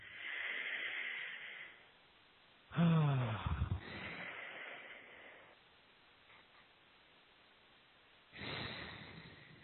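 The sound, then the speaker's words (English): Slow, deep breaths are taken during a guided relaxation exercise. A few long, airy inhales and exhales are separated by quiet pauses, and one breath carries a brief voiced sigh. “let's just take a few deep breaths. Just take a few nice, deep breaths.”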